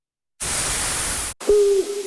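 A single low, steady owl hoot sounds after a loud burst of hiss-like static and a brief silence, then trails off into a fainter tone.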